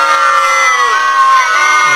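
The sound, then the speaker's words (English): Disgruntled crowd reaction, a loud, sustained massed groan of many voices blended into one droning tone that holds for about two seconds. “yep, I guess we gotta move on. The crowd's not happy.”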